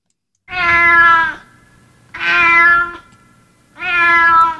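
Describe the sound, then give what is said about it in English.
A cat in heat meows three times in long, loud, drawn-out cries of steady pitch, evenly spaced with short quiet gaps between them. “That is the sound of a cat in heat, perhaps.”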